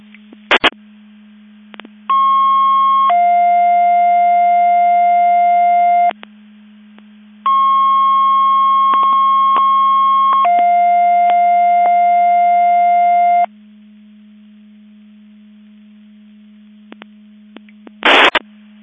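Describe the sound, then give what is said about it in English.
Fire alarm alerting receivers sound two long test-tone sequences over a Mutual Aid Box Alarm System radio channel, each a steady higher tone followed by a longer lower tone. A constant low hum runs underneath, with short bursts at the start and end. “I'm testing Mabus Division 5 Mutual Aid Box Alarm alerting receivers.”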